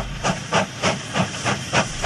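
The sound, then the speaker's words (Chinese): A steam train pulling into a small mountain station, its steady hissing chuffs pulsing about three times per second in an even rhythm over a continuous broad rush of steam, with no voices. “炮弹车很快驶进一个山区小火车站，还没停下”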